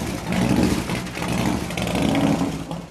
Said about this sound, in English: Jahi backs his Harley out of the garage.